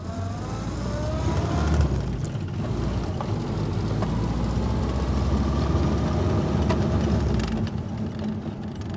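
Engine of a World War II-era military Jeep running while its owner tinkers with it among other military vehicle collectors: a steady, rough low rumble that holds throughout without clear revving, and no voices.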